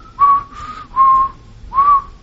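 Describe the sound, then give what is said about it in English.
A ten-month-old baby whistling: three short, steady mid-pitched whistled notes, evenly spaced, with quiet pauses between and no talk. “10 months old. He can whistle. I kid you not. He will go.”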